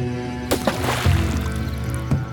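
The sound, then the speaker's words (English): Splashes of a leg of mutton thrown into water: a few short, bright bursts, loudest around the middle, over a steady low hum. “The mutton leg broke through its surface with a splash and disappeared from sight.”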